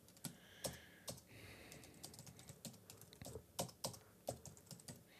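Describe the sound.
Typing a note on a computer keyboard: many quiet, irregular key clicks in quick bursts with brief pauses, and no talk.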